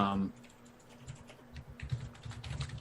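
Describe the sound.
Soft, quick keyboard typing as a name is written down: an uneven run of many light taps, faint and growing slightly busier toward the end.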